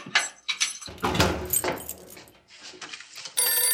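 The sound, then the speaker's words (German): Keys jangling and a lock clicking as someone unlocks a front door: a few sharp metallic rattles and scrapes of uneven rhythm, then a bright, steady ringing tone starting abruptly near the end. “So, endlich. Nur noch aufschließen.”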